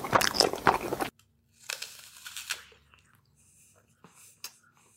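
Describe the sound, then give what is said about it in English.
Crunching and chewing from a mukbang eating live stream: a loud burst of crisp crunching, then softer irregular crunches, bites and faint smacking sounds. “We are leaving China and looking instead at South Korea, where eating and live streaming is the way to go. Yeah, you heard me right. Eating.”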